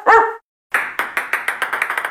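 A single short, loud dog bark in a pet-supply store advertisement, followed after a brief silence by a quickening run of many sharp taps.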